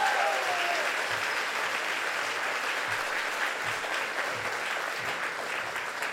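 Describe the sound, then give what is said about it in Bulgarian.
Audience applause at a comedy roast greeting the next participant: dense, steady clapping that holds at an even level for the whole stretch, with no talk over it. “Дайте ни аплодисменти!”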